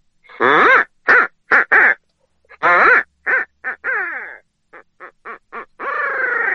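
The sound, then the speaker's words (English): A human voice imitates a barred owl call with a laughing finish, as used in turkey hunting. It is a loud, uneven string of many short hooting syllables, some grouped in quick bursts, ending in a longer drawn-out note. “You can also throw a little bit of what they call a laugh in that owl call. And it sounds something like,”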